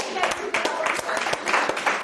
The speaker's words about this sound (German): Ein Applaus für Flippi.